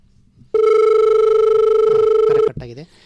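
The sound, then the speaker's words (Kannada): A telephone sounds for an incoming call with one long, loud, steady electronic tone lasting about two seconds. It cuts off abruptly, and a brief voice follows. “ಒಂದು ಕರೆ ಇದೆ”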